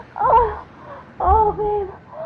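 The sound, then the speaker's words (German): A woman cries on a balcony, two wavering, sobbing wails rising and falling in pitch, separated by a short lull, with a softer tail at the end. “Oh, da weint eine Frau auf dem Balkon.”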